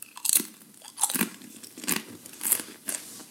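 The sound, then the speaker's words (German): Crisp crunching as someone bites and chews a tortilla chip, about five sharp, bright crunches in an uneven rhythm, fairly quiet, with no talking. “er probiert den Tortilla-Chip. Man hört es jetzt vielleicht ganz leicht im Mikro.”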